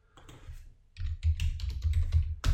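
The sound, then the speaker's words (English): Rapid clicking of a computer keyboard as a CSS feature name is typed into a search box: a few soft taps, then a dense run of many crisp keystrokes, ending on one sharp, louder click. “I'm going to just type in, well, CSS and JavaScript, in fact. I'm going to just type in hyphens.”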